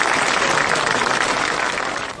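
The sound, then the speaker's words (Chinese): Applause from a class, welcoming a teacher to recite a classical poem at the end of a lesson: steady, dense clapping that stays even throughout and eases off slightly near the end. “请姚老师来为大家示范诵读一次，我们掌声有请”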